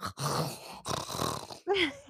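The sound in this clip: A voice imitates a loud snore that sounds like choking on the tongue, producing a few rough, gurgling snorts separated by brief pauses and ending on a strained, more tonal burst.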